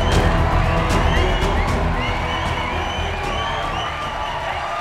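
A crowd cheers, whoops and applauds to welcome hosts onstage, a loud dense roar that eases slightly toward the end.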